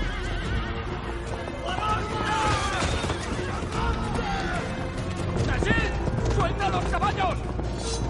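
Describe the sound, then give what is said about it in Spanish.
Horses whinny loudly and repeatedly, high wavering neighs over a rumble of galloping hooves as five mounted riders ride away during a pursuit in which one horse and its rider fell; the sound stays dense and continuous throughout. “Uno de los cinco les dispara una flecha. Quiere a uno, que cae al suelo con su caballo. Los cinco jinetes se alejan.”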